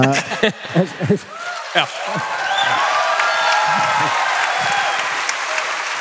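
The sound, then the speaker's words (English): An audience at a live show at the Ryman bursts into applause after a man speaks. Dense, even clapping swells in at about two seconds and carries on steadily and loudly to the end. “has applause for God, guys. Yeah, that, give it up for God.”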